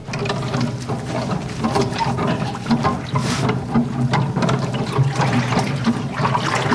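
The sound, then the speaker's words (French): Continuous sloshing and churning of water as a large wooden paddle plunged into it stirs it around. The splashing is steady and fairly loud, with no voices. “Donc c'est une grande pâle en bois en fait, plongée dans l'eau.”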